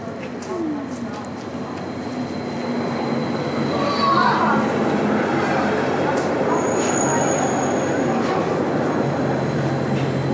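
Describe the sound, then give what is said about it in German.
A regional express train pulls into a station with a steady, loud rumble of wheels on rails, broken by a few thin, high metallic squeals and clicks as it rolls in. “fährt ein Regionalexpress von Düsseldorf nach Hamm über Kastrop-Raufe, Dortmund-Kamen, Anfahrt 12.34 Uhr. Nächster Halt Ihres Zuges ist Herne. Bitte Vorsicht bei der Einfahrt.”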